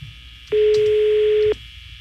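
A telephone tone heard while dialing a number: one steady, loud tone lasting about a second, standing alone over a low background hum.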